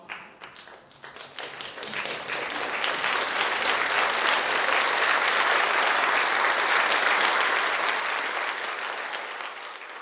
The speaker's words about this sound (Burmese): ရှေ့ဆုံးကနေလက်ခုပ်တီးပြလိုက်တော့ပြိတ္တဆင်မထိုင်နေတဲ့လူတွေကလက်ခုပ်တီးအားပေးလိုက်ပါတော့တယ်။